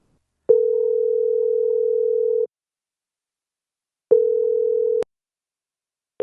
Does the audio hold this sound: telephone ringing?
yes